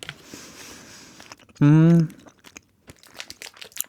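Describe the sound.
Someone bites into a green-flavoured candy and chews it, giving a handful of sharp, dry crunches in the latter half, after a brief loud tonal burst and some soft rustling.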